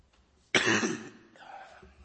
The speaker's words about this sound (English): Excuse me. Today we'll be in 1 Timothy 6. Oh, gee, I'd love to get rid of this cough.